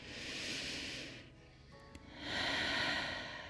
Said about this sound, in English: I put my hands on my knees, and I'm going to take a big breath in.